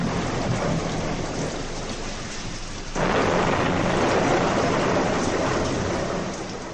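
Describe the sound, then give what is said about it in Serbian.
A thunderstorm with a heavy downpour: a dense, continuous roar of rain mixed with low rumbling thunder. It swells noticeably louder after a few seconds and eases slightly at the very end. “Grmelo i sevalo sa svih strana. Kiša je lila kao iz kabla, strahota jedna.”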